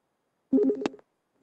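Telephone line tones as a caller connects to a City Commission call-in line, a single short burst of beeping tones lasting about half a second, followed by a faint trace.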